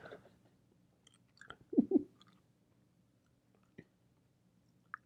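Quiet chewing of something that tastes like popcorn: soft, sparse mouth sounds with a short cluster of crisp, crunchy bites in the middle and a few isolated clicks afterward.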